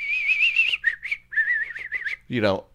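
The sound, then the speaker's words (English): A person whistles in imitation of a bird's repetitive call: high, warbling phrases repeated over and over, then a brief low vocal sound at the end. “they're mostly up there going, you ever heard a bird like that? That was just doing this.”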